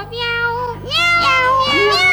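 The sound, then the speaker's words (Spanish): A cat meows in a few drawn-out, nasal calls. Each call rises and then slides in pitch. The calls are heard alone over a low, steady hum. “¿Quién está ahí? ¡Qué gato!”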